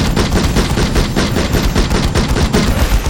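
A gunfire barrage sound effect from a futuristic battle in a palace corridor: loud, sustained automatic fire with rapid, tightly packed shots running unbroken from start to finish.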